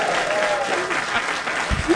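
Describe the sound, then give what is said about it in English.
Studio audience applause at a comedy trivia game show after a tie ending, with dense, lively clapping and voices mixed in throughout. “let's give a nice hand”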